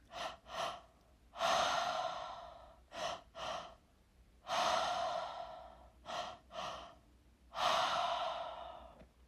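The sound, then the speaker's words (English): Triactive breathing done entirely through the mouth: three cycles, each of two quick, sharp inhales followed by one longer, breathy exhale. The rhythm is steady and there is no talk. “the breath that we're going to focus on is called the triactive breath. This breath is done all through the mouth. It's 2 inhales and 1 exhale. So it sounds like this.”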